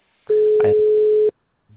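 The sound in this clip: A telephone busy signal: one steady mid-pitched tone lasting about a second, then a short pause before the next beep starts at the very end.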